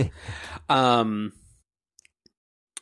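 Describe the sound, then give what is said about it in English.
Keyboard typing: a stretch of talk ends, and then four faint, sharp key clicks come at irregular intervals in near silence. “Show title. Let me type that in.”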